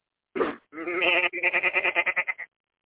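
Goats bleat on a farm: a short nasal call, then a long wavering bleat that breaks into a rapid, quavering series of pulses before stopping.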